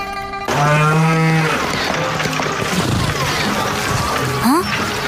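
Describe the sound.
A calf moos in one drawn-out, low, harmonic call, followed by a noisy stretch of watery sloshing.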